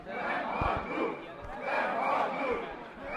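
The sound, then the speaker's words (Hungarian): Protesting university students march through the street chanting a slogan in unison, their massed voices rising and falling in broad, rhythmic swells. “vonul, és közben skandálja, nem hagyjuk.”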